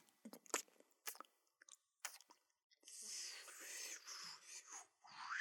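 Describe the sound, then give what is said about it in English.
ASMR lip smacking: a few sharp, wet clicks and pops, then longer soft, breathy mouth sounds, all faint. “Lip smacking noises. ASMR.”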